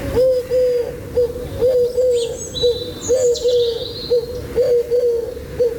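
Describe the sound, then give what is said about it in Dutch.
Turtle dove cooing: many low, soft coos repeat in a steady rhythm, with higher chirping bird calls scattered above them. “Ja, dat is weer een andere. Die hebben we hier ook, de tortelduif.”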